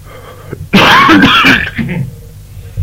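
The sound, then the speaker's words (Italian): Throat clearing and coughing from a teacher suffering from bronchitis: one loud, rough burst lasting under a second, then fainter rasping and hacking that trails off. “La tosse. La bronchite la fa da padrone. Lo so. È tipico degli insegnanti.”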